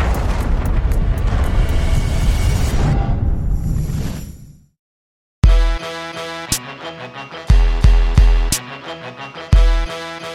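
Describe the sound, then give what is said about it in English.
An explosion sound effect, tied to crude oil blowing up, opens with a loud roaring blast and rumble that fades into silence, followed by dramatic music punctuated by heavy percussive booms. “Crude oil wasn't supposed to explode until it started exploding.”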